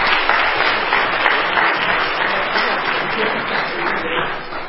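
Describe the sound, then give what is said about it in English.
A church audience applauds to welcome a guest back: loud, dense clapping that carries on evenly for the whole stretch. “would you put your hands together and welcome him one more time?”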